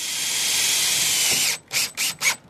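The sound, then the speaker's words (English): A nail gun fastens sawn plywood sections over a lounge's broken windows. A long, loud, hissing mechanical burst is followed by three short, sharp bursts in quick succession. “Workers saw plywood into sections that'll cover broken windows at Canvas, a lounge at 6th and Davidson. They use a nail gun to bolt them on.”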